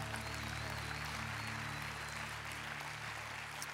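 Faint applause from a church audience rolls on as a steady, even wash of clapping through the whole clip.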